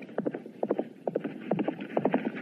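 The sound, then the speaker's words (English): Horse hooves clip-clop along a town street as a rider comes through, many paired hoofbeats in a steady, even rhythm at moderate loudness, with no voices. “Sheriff Holster went out into the street where he saw hateful Jake riding through town.”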